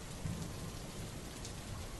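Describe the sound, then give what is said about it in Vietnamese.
Heavy rain pours steadily near a mountain top during a thunderstorm, a dense, even hiss with a low rumbling underneath and no voices. “Cơn mưa mỗi lúc một lớn hơn, và vì họ đang ở gần đỉnh núi, cho nên những tiếng sấm đánh ầm ầm mỗi lúc một lớn”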